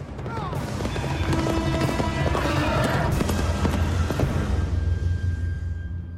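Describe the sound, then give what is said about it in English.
Horses gallop through a forest, their rapid hoofbeats pounding in a dense, continuous rhythm that stays loud throughout before thinning slightly at the end. “Etain and the Picts gallop through the forest.”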